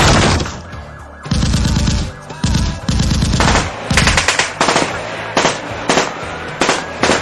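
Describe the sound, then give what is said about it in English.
Heavy machine-gun fire during a police shootout with a suspect: many loud, rapid bursts of shots separated by short pauses, continuing throughout. “We're taking heavy fire!”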